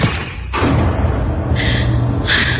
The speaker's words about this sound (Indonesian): Refleks, aku melempar buku catatan itu ke pojok ruangan.